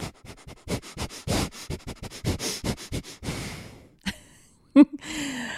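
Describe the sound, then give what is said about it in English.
Forceful breathwork exhales pushed out through the nose: many short, sharp, breathy bursts in a quick steady rhythm, followed by a longer, softer breath and a few fainter sounds. “It's just a forceful exhale out through the nose, and you continue exhaling out through the nose. So it will sound a little something like this.”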